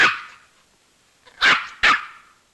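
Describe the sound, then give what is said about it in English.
A toy poodle barks in an apartment with three sharp, high yaps. The first bark is followed by a pause, then two more come in quick succession. “Now at Rita's apartment, a toy poodle barks at Tom, who sits beside it.”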